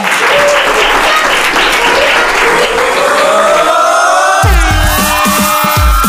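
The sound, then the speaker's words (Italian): Children from an activity group applaud in a steady wash of dense clapping for about four seconds, then a bright music jingle begins and plays over the remaining applause. “Ciao, grazie, fatemi un altro applauso.”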